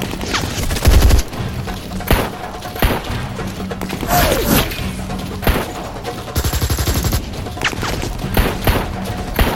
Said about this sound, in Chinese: 快，冲出去！我火力掩护！